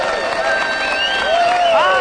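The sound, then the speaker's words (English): A television studio audience cheers hello, overlapping shouted and whooping voices rising and falling above a busy crowd murmur in a short, lively burst. “They're our studio audience. Sometimes they're here more than we are. They say hello to the Wild Bunch because they are.”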